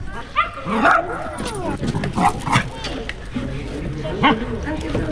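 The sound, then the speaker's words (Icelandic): A dog gives several high yips, barks and whimpers with rising and falling pitch, mixed with people talking. “Við kannski heilsum upp á hunda.”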